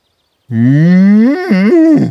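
A cow on a farm lets out one long, loud moo, its low pitch climbing slowly before breaking into a wavering, uneven ending.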